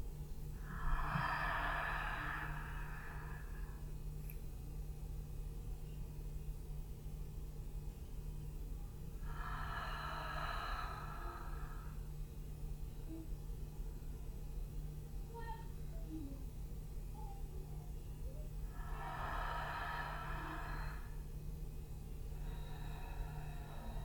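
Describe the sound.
Slow, deep inhalations: three long, soft breaths spaced several seconds apart, each a gentle airy rush, heard over a steady low hum.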